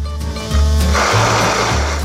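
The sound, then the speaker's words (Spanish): An electric blender whirs steadily in a cup while mayonnaise is beaten until it emulsifies. The motor drone is loud and continuous, growing stronger after a brief start and holding to the end. “Es que mover un poquito por ahí en la copa. Hasta que emulsione la mayonesa. Sigue batiendo.”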